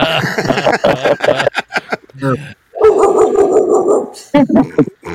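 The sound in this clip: A dog barks near a front door, with sharp barks and short yips mixed among overlapping human voices. Loud bursts come in quick runs, separated by a brief pause.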